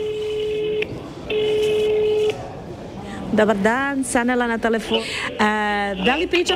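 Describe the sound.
Telephone tones play as a call is placed to a hospital: two long, steady tones with a pause between them, followed by a person talking.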